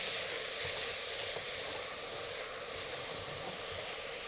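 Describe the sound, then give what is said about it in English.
Onions frying in a pan give off a steady, dense sizzle that stays even in loudness throughout, with no talking over it. “Our onions are cooking away.”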